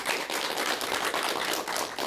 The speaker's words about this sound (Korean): 여러분 박수 부탁드릴게요. 감사합니다.